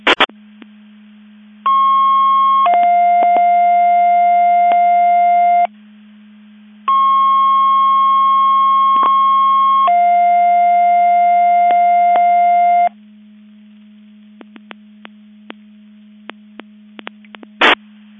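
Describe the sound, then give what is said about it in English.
MABAS Division 2 alerting receiver test tones: two long sequences, each a steady higher tone that steps down to a lower tone, over a constant low hum. A few brief clicks come near the end. “testing the Division 2 Mutual Aid Box Alarm Alerting Receivers.”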